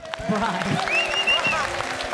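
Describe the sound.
An audience claps to welcome a performer onto a show, a steady patter of many hands beneath a talking voice.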